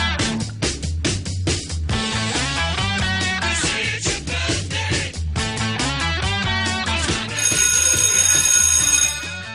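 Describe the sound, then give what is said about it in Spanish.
A studio bell sounds at the start of a radio programme, a bright, rapid metallic ringing woven into dense musical tones, loud and continuous throughout, with a higher shimmering layer joining near the end. “Ahí empezó. Sonó de otra manera el timbre, ¿vio?”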